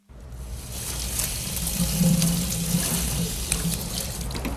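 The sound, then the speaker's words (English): Running water from a sink tap as a head is rinsed off during a forensic examination. A steady, loud hissing and splashing stream swells briefly at the start and then holds even. “Doc Robbins is rinsing the head off.”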